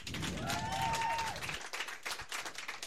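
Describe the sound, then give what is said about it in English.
Audience applause for a performer being introduced at an event: dense clapping with a gliding, whistle-like tone that rises and falls in the first half, then thinning to sparser, scattered claps. “By a round of applause, Uncle Yo!”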